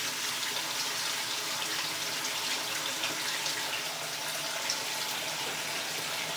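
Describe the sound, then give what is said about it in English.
Water runs from a tap into a sink as things are rinsed, a constant, even rushing hiss with no breaks and no voices. “going to rinse these things now.”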